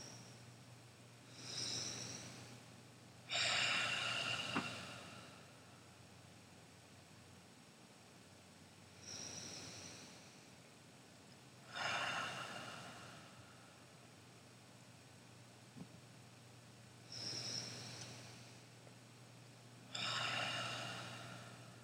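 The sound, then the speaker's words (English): Three slow Ujjayi breaths taken during a meditation: soft, throaty, hissing inhales and exhales in six separate bursts with quiet pauses between them, over a faint steady hum. “3 Ujjayi breaths.”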